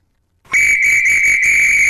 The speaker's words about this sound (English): my first whistle, it's a simple Carlton 320C.